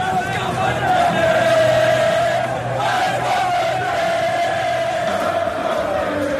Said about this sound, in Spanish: Y además es que el público de Gales ha terminado cantando esto.